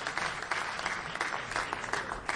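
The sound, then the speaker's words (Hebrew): Audience applause for a cantor at a concert, a dense steady wash of many hands clapping throughout, fairly loud and continuous with no voices over it. “אני אבקש מכולם לתת לו מחיאות כפיים לחזן שמחה רוטנברג”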